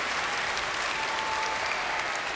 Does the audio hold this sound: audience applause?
yes